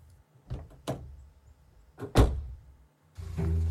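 Someone climbs into a car: a few soft bumps and shuffles lead to one heavy door thud, then a low, steady rumble begins near the end.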